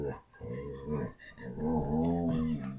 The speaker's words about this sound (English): Did you hear that? That's the sound of a dog that thinks you should follow us.